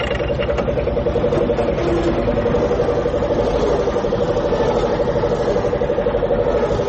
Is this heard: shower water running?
no